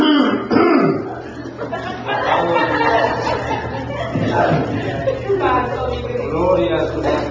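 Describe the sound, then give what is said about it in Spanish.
Throat clearing and rough coughing, imitated by a preacher acting out a pastor straining his throat midway through a sermon. A few gravelly rasps sound loud, with chuckle-like bursts mixed in. “Y empieza el pastor a predicar y a la media hora está raspando la garganta.”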